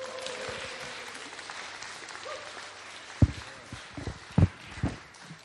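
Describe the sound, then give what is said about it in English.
Applause from an audience at a church gathering in Teesside welcomes two speakers, a soft continuous patter of clapping broken by a few louder, sharp thumps. “why don't we put our hands together for a big Teesside welcome to Mike and Joe Sutton.”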